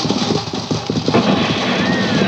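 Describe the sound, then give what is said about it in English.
Hooves clip-clop as horses are driven, a quick, busy patter of hoofbeats over a constant rolling noise, fairly loud throughout. “You drive them horses.”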